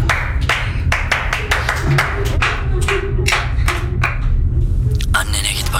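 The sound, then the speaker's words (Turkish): Handclaps for applause, sharp separate claps arriving in an irregular scatter of many beats over a low steady hum, fairly loud throughout. “Harikaydın, alkış.”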